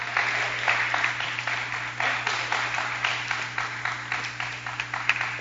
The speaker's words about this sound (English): Can we put our hands together for God?